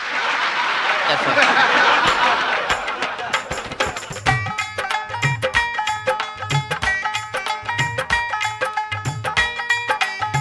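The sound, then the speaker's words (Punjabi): Audience applause at a celebration for a newborn baby boy: a dense, steady wash of clapping fills the first few seconds, then fades as music with a brisk, regular percussion beat takes over. “ਇੱਕ ਵਾਰੀ ਜ਼ੋਰਦਾਰ ਤਾੜੀਆਂ ਮਾਰ ਦਿਓ।”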